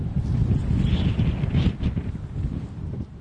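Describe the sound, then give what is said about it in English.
Strong wind sweeping across open, boggy grassland with tall dry grass, a loud continuous roar and buffeting rumble with gusty surges throughout. “And there's wind, a lot of wind.”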